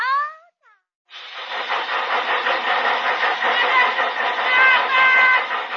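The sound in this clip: A fat-melting machine switches on with a steady, buzzing mechanical hum full of layered tones that runs unbroken to the end. A brief meow-like cry comes just before it starts.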